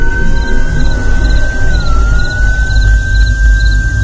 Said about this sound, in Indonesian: suara sirene ambulan itu semakin lama suaranya terdengar semakin keras.